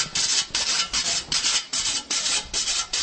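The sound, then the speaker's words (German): A whetstone strokes along a scythe blade as a reaper sharpens it in the field, making a steady, regular run of broad, hissing rasps that repeat at an even pace with brief dips between strokes. “Auf dem Feld braucht die Sense aber auch Pflege. Der Schnitter muss sie regelmäßig wetzen.”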